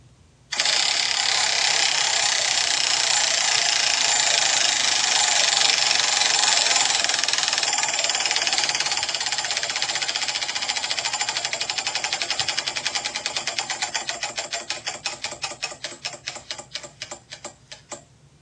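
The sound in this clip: A prize wheel being spun: a loud whirring burst as it starts, turning into rapid clicking that gradually slows and grows fainter as the wheel comes to rest.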